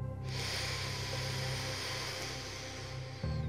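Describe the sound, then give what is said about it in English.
A slow, deep inhale through the nose is a long, steady, airy hiss lasting about three seconds, holding an even loudness before ending abruptly. “Inhale through your nose, slowly and deeply.”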